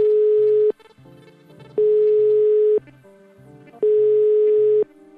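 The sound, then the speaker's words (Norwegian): A telephone ringing tone on an outgoing call: three long, even, steady beeps of about a second each, separated by roughly one-second gaps, over faint low background sound. “Vi får ringe professor i kulturhistorie Anne Eriksen”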